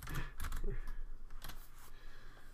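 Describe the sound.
Fingers tap on a computer keyboard, producing a run of soft, irregular key clicks at low volume, mixed with faint talk.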